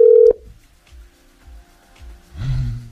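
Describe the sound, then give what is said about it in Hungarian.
Telephone dialing tones as a radio host calls a listener: a short, loud, steady tone, then a few soft, low blips, ending in a rising wash of noise. “Na, hívjuk gyorsan a nap hallgatóját.”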